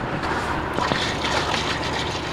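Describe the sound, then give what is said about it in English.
Lamprey treatment chemical is poured into a creek, making a steady, noisy gush and splash of liquid that runs through the whole short stretch. “They are applying the treatment to Cattaraugus Creek. Go ahead and pour this one in.”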